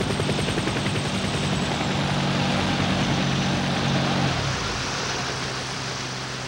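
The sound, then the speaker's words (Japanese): Airplane descending and landing: a loud, continuous engine roar with a rough, broad texture. A low droning layer drops away partway through, and the overall sound eases slightly toward the end, with no voices. “あれは鳥ではない。飛行機という乗り物だ。”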